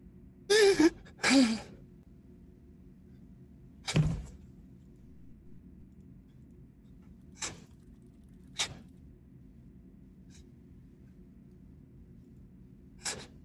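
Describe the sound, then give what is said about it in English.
A woman gasps for breath: two sharp, breathy inhalations in quick succession, then another gasp a few seconds later, followed by a few faint clicks in near silence. “She gasps for breath.”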